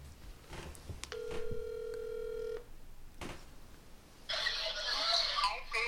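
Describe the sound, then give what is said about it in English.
A phone call rings out on speakerphone as one steady, buzzing ringback tone lasting about a second and a half, later followed by a burst of loud, hissy noise. “Should I call Nathan right now and put him on speaker?”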